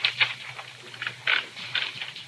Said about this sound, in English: So, sit down at the great author's typewriter and make it out.